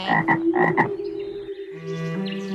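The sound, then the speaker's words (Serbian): Frog croaking in a yard: a few short, rasping croaks come in quick pairs, followed by a steadier tonal drone that carries on to the end. “Oglasila se žaba duboko iz dvorišta. Otkud ona tu? Zar se nismo dogovarali da žabe danas ne puštamo na travu?”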